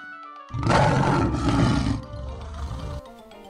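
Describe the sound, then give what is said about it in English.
A lion lying lazily on a log gives a single deep, loud roar that swells suddenly, holds for about a second and a half, then trails off into a lower, quieter growl before fading. “A lazy lion on a log.”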